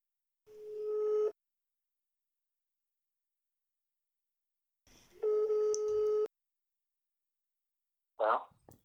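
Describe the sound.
Telephone ringback tone on an outgoing call: two steady, buzzy mid-pitched rings separated by a long silence, the second ring slightly longer, followed by a brief burst of voice at the end.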